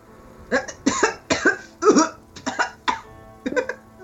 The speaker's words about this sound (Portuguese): Eu tô engasgada com o negócio.